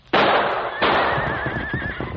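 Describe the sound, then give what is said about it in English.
Gunshots fired beside a team of horses facing a rattlesnake, heard as two sharp, loud bursts, followed by a sustained high horse whinny as the animals panic. “The snake in the gunfire scared him.”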